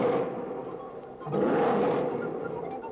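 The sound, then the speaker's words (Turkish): A mountain lion roaring: a rough, rumbling roar that swells loudly, eases off briefly, then surges again and holds, a dense, gritty noise without clear pauses. “Bir ses duydun mu? Evet, duydum. Dağ aslanı, hem de çok yakından geldi.”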